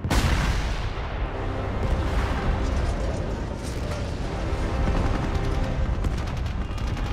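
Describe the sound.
Heavy gunfire as Norwegian guns fire on the German warship Blücher, a loud, continuous barrage of dense, overlapping blasts and booms with no break.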